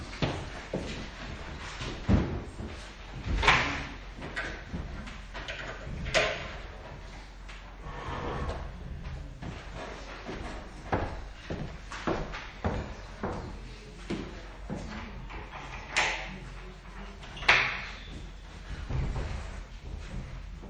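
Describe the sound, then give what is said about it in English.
Windows being opened a crack for airflow before a lecture, a series of scattered sliding scrapes, knocks and thumps from the frames spread across the stretch, with a few louder bumps standing out from a steady low rumble. “I'm going to crack the windows just so that we have some airflow, if that's okay with you, because it gets very warm in here.”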